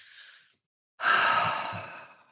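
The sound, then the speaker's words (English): A deep belly breath taken to model calm coping: a brief soft breath, a pause, then a long, full sigh-like exhale that starts strong and slowly fades. “if you stop and go, and you take a nice deep belly breath and you get into your skin,”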